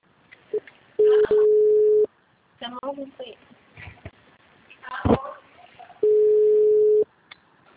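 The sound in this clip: A telephone busy tone after a dropped call sounds as two long, steady, mid-pitched beeps, separated by brief voices and handling noise.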